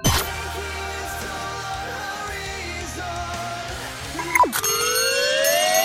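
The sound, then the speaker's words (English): A comic alarm sound effect in an album review, starting as sustained tonal, music-like sound and breaking into a loud rising siren-like sweep for about the last second and a half. “Oh, you like that? It's the sound of my cheese alarm. Haven't had the chance to use it before now”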